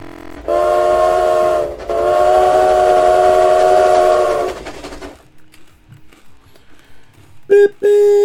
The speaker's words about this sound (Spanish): Vámonos para el tren, señoras y señores. Súbanse, trepense.